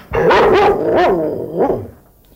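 A pet dog barks indoors at home in a few high, whiny, tonal yelps, loud and close together at first and then a final shorter bark, with no voices over it.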